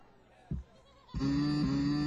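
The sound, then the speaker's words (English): A played cow moo sound effect: a brief low thump, then a steady, nasal, droning call that holds one pitch to the end. “That's the cow. Can you see it, the cow? Hold on, man. That's the cow. That's a cow”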